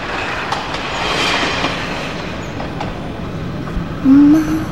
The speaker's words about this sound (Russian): По рельсам на дне окружающего купальни рва проносится поезд.